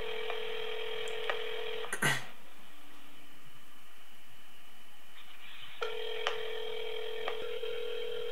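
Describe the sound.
Faint telephone tones while calling back a scam caller: a steady electronic tone with brief clicks, a short burst, a quiet gap, then the tone resumes with a few more clicks.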